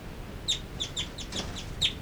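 Birds call inside a cell, giving several short, high-pitched chirps spaced irregularly over a steady background hiss. A few calls come through louder and others are softer.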